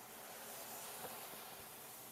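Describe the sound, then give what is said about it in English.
Chicken frying in a pan gives a steady, faint sizzling hiss that runs evenly throughout with no talk. “So now what we're doing is we're just letting it fry, and then”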